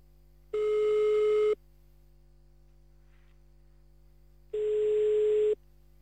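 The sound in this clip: Two long, steady, mid-pitched beeps, each lasting about a second, sound on an outgoing telephone call to Jemeppe-sur-Meuse in Belgium. A quiet gap of about three seconds separates them.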